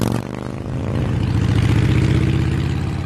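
Motorbike engine accelerating while carrying two riders, a loud, harsh, throbbing rumble that swells after a brief dip and then holds steady and strong.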